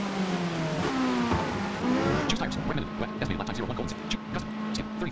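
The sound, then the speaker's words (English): A race car engine as the car moves slowly through the rain toward its pit box: a loud, steady motor drone with shifting engine tones and pitch changes as it rolls along. “Your car moves slowly through the rain towards your pit box.”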